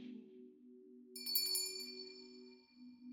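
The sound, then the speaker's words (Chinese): A small bell rings once with a bright, shimmering tone that lingers and slowly fades, over a faint, steady low hum. “你越是颤抖，铃铛声就会夺走你越多的理智。”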